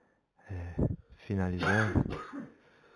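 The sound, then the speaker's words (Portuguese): A medium coughs and clears his throat during a recording session, giving a few rough, voiced bursts and a longer rasping stretch with strained vocal tones, moderately loud with quiet gaps between. “O médium não apresenta qualquer sinal de gripe ou tosse, só nesses momentos de gravação em que isso acontece.”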